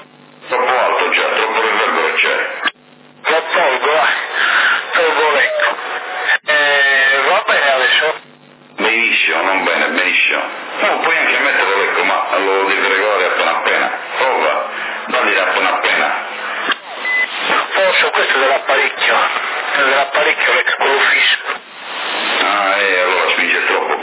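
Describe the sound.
Echo effect on a CB radio transmission, set up on a Cobra rig, in an exchange between CB operators in Sassari: narrow, band-limited voices talk almost continuously, broken by a few brief drops between transmissions.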